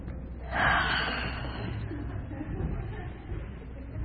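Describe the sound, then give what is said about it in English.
A single deep inhalation during a guided group meditation: a soft, breathy rush swells early on, then settles into a low, steady background hush. “Together we all take a deep breath.”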